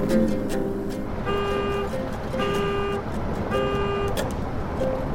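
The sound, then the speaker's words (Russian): A convertible car drives along a road between fields of dry grass, with steady engine and road noise beneath a repeating tonal pattern of notes. “По дороге вдоль полей с сухой травой едет кабриолет.”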